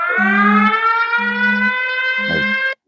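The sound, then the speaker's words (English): An alarm goes off with a steady, bright electronic tone held throughout, while three low buzzing pulses sound underneath at regular intervals before it cuts off abruptly. “Don't worry, that was just my alarm going off.”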